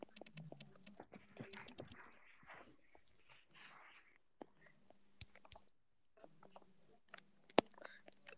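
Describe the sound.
Someone types messages during a recording, producing faint, scattered tapping clicks in short irregular bursts with quiet gaps between them. A soft murmur briefly rises among the taps.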